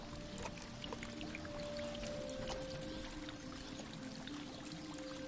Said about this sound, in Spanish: Clava un cuchillo en una raíz. Brota agua del corte.